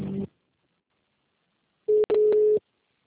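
Telephone tones play while a call is transferred on a state pension service's phone line: one short tone burst, a long silence, then two more tone bursts in quick succession, the second one longer.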